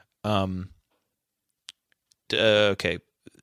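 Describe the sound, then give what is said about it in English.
Computer mouse clicks as someone clicks on an item: a few faint, sharp ticks falling in the gaps between louder bursts of voice. “I'm going to click on it, make sure I have the plot right.”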